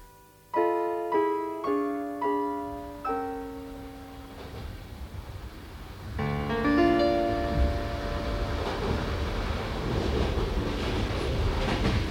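Train approaching a station, heard from inside a compartment: a few ringing tonal notes decay away, then a steady rolling rumble of rail noise with a faint whining tone continues to the end.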